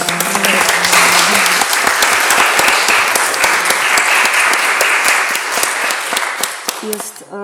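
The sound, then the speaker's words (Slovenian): Audience applause at a panel discussion event, dense and steady clapping that holds at a strong level for several seconds before thinning slightly near the end. “Tudi za vas en aplavz.”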